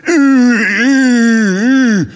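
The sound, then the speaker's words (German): A voice imitates the strained groaning of muscle men lifting weights: one continuous, loud, voiced groan lasting about two seconds, held at a steady mid pitch with slight wavering, then dropping away at the end. “Da ist in einer Ecke, da dann stöhnen diese Muskelmänner.”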